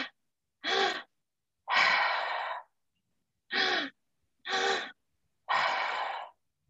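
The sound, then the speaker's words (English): Open-mouth breathwork: each inhale is drawn into the belly and then the upper chest, followed by a relaxed exhale. Breathy rushes come in a few short and longer bursts separated by brief silences, and no one speaks. “belly for the first part of the inhale, up into the upper chest for the second part, and then a relaxed exhale, and it all happens through an open mouth. So it sounds a little bit like this.”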